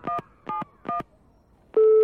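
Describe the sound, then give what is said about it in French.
Telephone keypad tones as a number is dialed to call back: three short, evenly spaced beeps, a brief pause, then a steady, sustained tone, clear and with no talk. “Je rappelle.”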